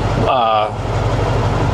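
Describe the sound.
A diesel truck engine idles slightly above stock at roughly 700 to 800 RPM, a steady low rumbling hum that runs unbroken beneath people talking.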